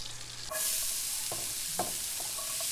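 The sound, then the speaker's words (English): Chopped onions, celery and jalapeno sizzle in a hot pan, a steady bright hiss of frying that runs throughout, with a few soft stirring scrapes. “And into the pan go the onions and the celery and the jalapeno.”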